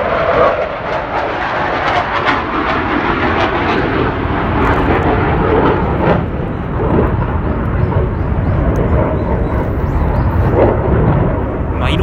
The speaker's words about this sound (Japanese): いやあんまりね相性よろしくないのよラジオと飛行機の音って相性よろしくないのよね